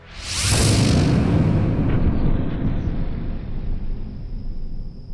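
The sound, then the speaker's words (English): An explosion set by a demolitions expert blasts apart a stone wall covered in etchings: a sudden loud burst with a hissing rush, then a long rumbling, crackling roar that slowly fades over several seconds, with no voices. “I was determined to find out what might lie on the other side, so I ordered the team's demolitions expert to destroy it.”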